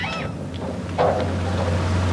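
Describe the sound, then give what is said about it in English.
An inflatable Zodiac boat puttering along a wide channel flanked by mangroves, a steady low motor drone over rushing water and wind noise, with the engine tone growing clearer partway through. “As the robotic boat sets off, he putters close behind it, keeping an eye on its progress.”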